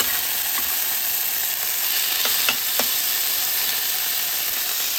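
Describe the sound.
Sweet potato heating in a pan sizzles with a steady, bright frying hiss, dotted with a few faint pops and crackles throughout.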